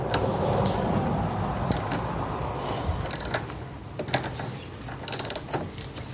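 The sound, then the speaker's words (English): A socket wrench ratchets while tightening a car's negative battery terminal. It gives faint, short bursts of quick clicking at intervals over a steady low background rumble. “Switch my socket wrench back the other way to tighten.”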